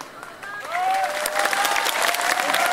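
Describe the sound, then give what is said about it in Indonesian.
A crowd applauds during a political speech, a dense, even wash of clapping that swells after the first second and holds steady to the end. “Padahal sing tepuk tangan ini ra dikai apa-apa, ora gelem nyoblos.”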